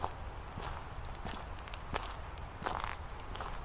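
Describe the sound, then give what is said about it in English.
Footsteps crunch on gravel as a walker moves at a gentle, unhurried pace, each step a faint crisp scrunch in a steady, regular rhythm, with no talk. “The crunch of the gravel beneath her shoes is oddly satisfying,”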